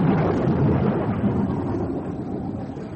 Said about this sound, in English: there's no need to go to pieces because we're unlucky enough to have a thunderstorm.